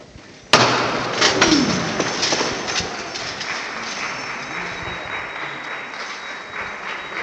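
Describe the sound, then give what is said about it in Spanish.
Applause fills a church in Jaén during an Easter Sunday procession while the pallium float stands halted. The clapping starts abruptly after half a second, then a dense sustained roar of many hands eases slightly but continues throughout. “Aplausos aún en el interior de San Ildefonso, aún detenido el paso de palio”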